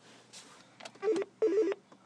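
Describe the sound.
A SNOM 360 SIP phone gives a few soft electronic blips, then two bursts of warbling, trilling ring tone with a bright, chirpy pitch that stands out clearly from near silence.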